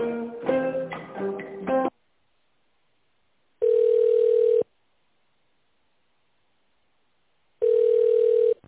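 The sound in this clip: Telephone ringing tone while a call is transferred: a short burst of music, then two steady, even ring beeps, each about a second long, separated by silence.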